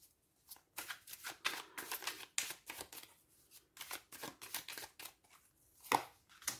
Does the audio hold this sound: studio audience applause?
no

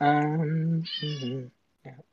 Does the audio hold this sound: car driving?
no

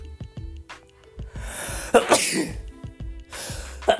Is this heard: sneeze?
yes

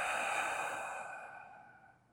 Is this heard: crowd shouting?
no

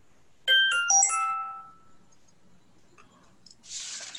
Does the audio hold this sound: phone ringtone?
yes

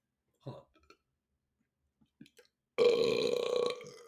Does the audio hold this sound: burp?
yes

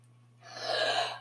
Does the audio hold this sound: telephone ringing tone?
no

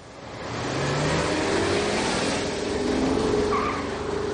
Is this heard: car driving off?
yes

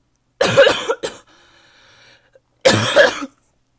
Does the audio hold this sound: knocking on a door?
no

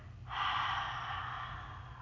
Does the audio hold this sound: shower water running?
no

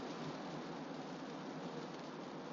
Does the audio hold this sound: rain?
yes

